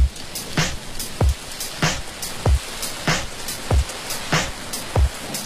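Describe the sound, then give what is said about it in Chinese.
A rain-like hiss runs through a piece of music. Under the steady wash, sharp clicking beats repeat at an even, regular pace. “有一种下雨的声音，放心放心，此刻并没有下雨。”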